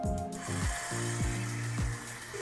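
An electric mixer whirs at reduced speed as chocolate butter is poured into brownie batter. A steady mechanical drone carries a repeating, ratchet-like gear rhythm that cycles several times, with no talking.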